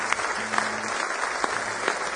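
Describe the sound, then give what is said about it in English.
Church audience clapping hands in praise during a morning service, a continuous patter of applause with a few sharper claps standing out. “Give Him a big hand clap of praise if you love Him with all your heart this morning.”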